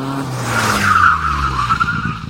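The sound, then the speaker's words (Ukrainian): A car skids on a busy road, tires squealing in one sustained, wavering screech over a low engine rumble, with no voices. “ти ледь не потрапив під машину.”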